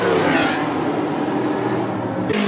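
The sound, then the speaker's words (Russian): Loud roar of vintage racing cars, built between the 1920s and 1970s, running the street circuit of a historic Monaco Grand Prix. The engine noise is steady and sustained throughout, with no talk. “улицы Монте-Карло огласились ревом болидов”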